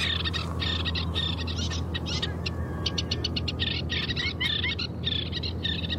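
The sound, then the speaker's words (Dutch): Terns screeching over a waterway: many rapid, harsh, high-pitched calls overlapping in quick bursts above a steady low rumble, with no voices. “De sterntjes op de waterweg krijsten honend.”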